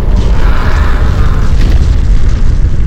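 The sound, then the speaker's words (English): Deep, loud roaring rush of an avalanche's air blast, a violent wind surge driven ahead of a very large snow slide; the dense, rumbling noise stays steady and heavy from start to finish with no pauses. “David Skjonsberg explains the phenomenon known as an air blast. The wind blast associated with avalanches is in fact quite rare.”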